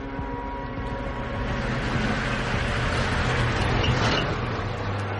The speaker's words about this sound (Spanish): Una camioneta circula por la carretera.